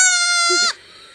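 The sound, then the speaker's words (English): A baby goat gives a single high, scream-like bleat with a strained, buzzy tone. It holds for about seven-tenths of a second, then cuts off abruptly, leaving near quiet. “Who knew that this is the sound of a baby goat?”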